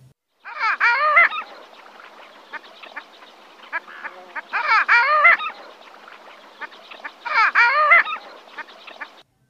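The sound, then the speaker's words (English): Loud yodeling call of a male long-tailed duck: three loud, warbling phrases spaced a few seconds apart, with softer, scattered notes between them. “That was the loud yodeling call of a male long-tailed duck.”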